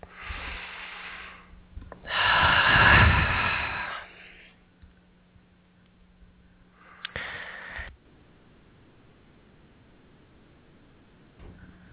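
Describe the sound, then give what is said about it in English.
A person takes slow, deep breaths: one long, loud breath stands out among a few fainter ones, with quiet pauses between them. “So I'm just going to take some nice deep breaths.”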